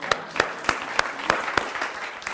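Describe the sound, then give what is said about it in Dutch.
Applause at a church gathering after a prayer: a soft wash of clapping with sharper claps standing out at a regular, even pulse throughout. “Ik vind dat Hester een applaus verdient.”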